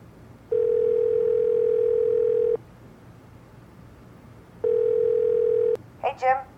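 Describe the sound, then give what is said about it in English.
A telephone tone plays while a call is placed: two long, steady electronic tones, each about two seconds, separated by a quiet gap, then a brief voice is heard. “Let me give them a call.”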